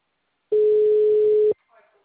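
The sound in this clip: A telephone tone as a call is dialed: one steady mid-pitched tone lasting about a second, followed by a faint, brief trailing sound.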